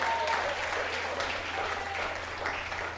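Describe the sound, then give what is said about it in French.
Audience applause at a Catholic gathering where a married layman is giving a talk on charity with a priest in attendance. The clapping is a dense, steady wash that holds at an even loudness for the whole stretch. “Et je suis très fier d'être marié. Acclame le Seigneur pour ça.”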